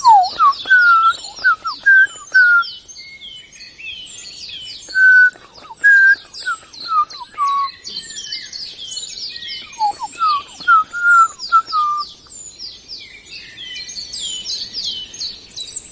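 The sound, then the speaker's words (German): Common blackbird song: fluting whistled phrases come in several bursts with short pauses, over a dense layer of higher chirping from other birds. “hören jetzt vor allem das wunderbare Flöten der Amsel”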